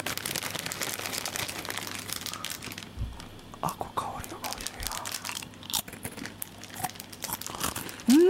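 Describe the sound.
Crinkly snack packages, sansho and camembert flavoured, being torn open and handled: many sharp crackling and crunching bursts, some louder and some softer, with quiet voices in the background.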